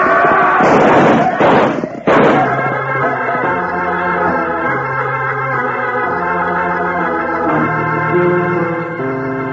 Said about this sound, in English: They're shooting at the boys. We'll stop that. Open up on them.